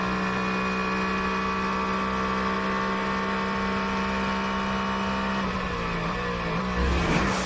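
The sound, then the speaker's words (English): A GT race car's engine drones loudly and steadily as it passes a BMW during a race, and the tone roughens toward the end. “It's the protocol competition for GT going past the BMW.”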